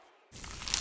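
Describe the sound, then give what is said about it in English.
Bite into a crunchy, cheesy slice of pizza: after a brief quiet, one loud burst of crackly, crisp crunching starts and carries on to the end. “Is that the sound of an ooey gooey cheesy crunchy slice of pizza?”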